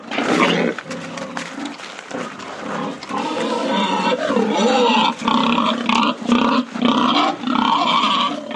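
Wild boars at a Finnish wildlife park grunt, snort and squeal in a loud, continuous, overlapping chorus of harsh rasping calls and higher squeals, with no pauses.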